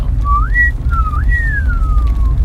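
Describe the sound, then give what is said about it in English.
A great partridge calls with clear whistled notes: a short note that slides upward, then a second upward slide that draws out into a long, slowly falling whistle. A steady low rumble runs underneath. “Okay, so that was a great partridge.”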